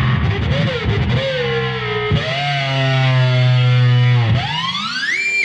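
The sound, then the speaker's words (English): An electric guitar runs through distortion and a whammy pedal, playing loud, buzzing sustained notes whose pitch bends and glides, ending in a sharp upward pitch sweep, with no talk. “I can get guitar sounds quite simple with just simple distortion on it.”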